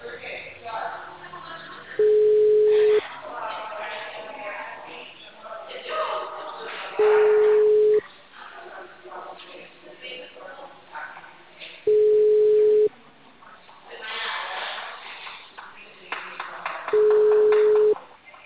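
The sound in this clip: Telephone busy signal on a phone line: four steady mid-pitched beeps at regular intervals, with talk continuing between and around them.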